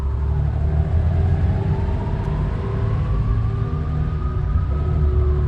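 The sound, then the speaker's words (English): A Porsche's engine rumbles low and steady as the car slowly reverses, turns and rolls forward, with a faint whine that climbs slightly and then holds. “The Porsche slowly reverses. Inside, Wheelman turns the Porsche around, then rolls down a corridor to a walkway.”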